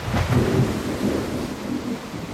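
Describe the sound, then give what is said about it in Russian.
A thunderstorm with heavy rain striking tree leaves, a low rumbling roll of thunder over a steady, dense hiss of downpour. “Сильный ветер внезапно загудел в вышине. Деревья забушевали, крупные капли дождя резко застучали, зашлепали по листьям. Сверкнула молния, и гроза разразилась.”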